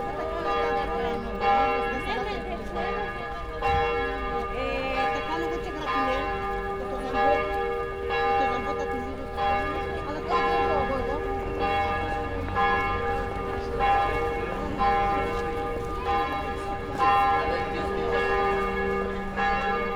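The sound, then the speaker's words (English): Church bells ringing over a market, their sustained, layered tones holding steady throughout above a constant wash of market bustle. “The church bells are reduced to a tiny ting because we are only hearing its harmonics in resonance. Whilst under 20,000 Hz, they fill up the sound space of the market.”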